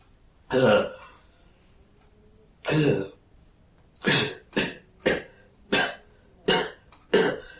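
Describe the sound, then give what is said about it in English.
A person imitates coughing for someone who breathed black-flecked water into the lungs. There are eight harsh coughs: two widely spaced, then six in quicker succession. “He begins to cough and is starting to cough up little black flecks.”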